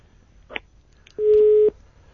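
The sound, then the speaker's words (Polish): Telephone busy tone on a radio call-in line after the caller hung up: a soft click, then a single steady mid-pitched beep lasting about half a second, with quiet line hiss around it. “No ktoś chyba próbuje, czy rzeczywiście my odbieramy te telefony na bieżąco, ponieważ jak pan profesor usłyszał, kiedy odebrałem, odłożona słuchawka.”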